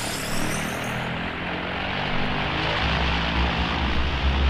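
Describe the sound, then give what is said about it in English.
Propeller aircraft engines drone loudly and steadily as five U.S. Navy bombers take off from Fort Lauderdale, Florida, in 1945. A dense, continuous roar sits over a low throbbing hum, and a thin high whine fades out early. “At 1406 on the 4th of December 1945, five U.S. Navy bombers took off from Fort Lauderdale, Florida.”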